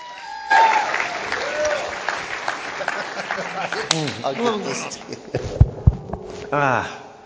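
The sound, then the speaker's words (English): Sparse, polite golf-clap applause from an audience welcoming a guest after an introduction. Scattered claps come with a few voices and whoops, rising in short bursts toward the end. “Thank you for that golf clap.”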